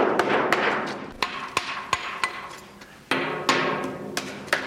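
A hammer taps concrete on a bridge box girder, sounding out hollow spots and loose material: many sharp, fairly regular knocks, each with a brief resonant ring, moderately loud, with no voices.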